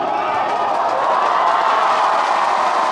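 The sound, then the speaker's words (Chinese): Crowd cheering for the teams at an exhibition match, a steady, dense roar of many voices that holds at an even loudness throughout, with no single voice standing out. “感谢大家的加油。”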